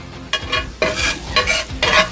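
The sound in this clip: Spatula strokes scrape and stir cheesesteak meat and melted cheese on a hot frying surface. A few rhythmic scraping pushes rise over a steady, crackling sizzle.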